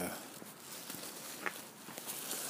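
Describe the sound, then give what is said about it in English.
Footsteps walking outdoors at night under a clear sky: soft, faint, irregular steps over a quiet background hiss. “Just getting out for the walk.”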